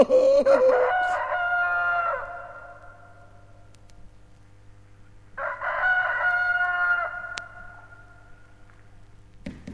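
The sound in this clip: Rooster crowing: two drawn-out cock-a-doodle-doo calls separated by a pause of a few seconds, loud and clear over a faint, steady low hum.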